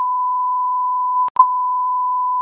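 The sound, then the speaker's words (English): Fire dispatch alert tone sounded for a second-alarm call: a steady, single-pitch electronic beep held throughout, broken once near the middle by a brief gap and a couple of crackles. “Second alarm being sounded.”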